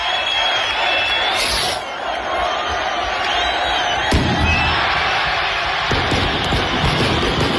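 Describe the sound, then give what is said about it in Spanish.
A chupinazo firework rocket and a festival crowd in the town hall square open Calahorra's town festival. A continuous roar of crowd noise is broken by a couple of sharp bangs near the end. “Como escuchan, el día ha comenzado con la colocación del pañuelo rojo a Quintiliano y el chupinazo en la plaza del Ayuntamiento, que da la bienvenida oficial a las fiestas.”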